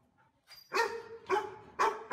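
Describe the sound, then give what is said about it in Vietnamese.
A dog barks loudly at night toward the foot of a mountain, three harsh, evenly spaced barks about half a second apart, with no voices. “Nhưng con chó cứ gióng ra hướng người về phía chân núi mà sủa lên inh ỏi.”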